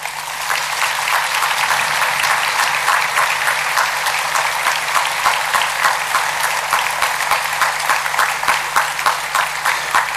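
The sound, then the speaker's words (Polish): Sustained, loud applause follows a religious procession and rewards the orchestra and cathedral choir, a dense patter of many hands that stays even for about ten seconds. “O ile ci wcześniejsi mogli usłyszeć podziękowania, zaspokoiwszy się słowami, orkiestra i chór potrzebują braw.”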